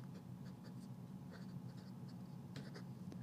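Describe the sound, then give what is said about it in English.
Thick Sharpie marker writing on a surface, a soft continuous scratchy drag broken by a few brighter squeaky strokes, faint and steady throughout with no talking. “this Sharpie's, it's getting really fat, so the stuff is just blending together. I need to draw bigger or write bigger.”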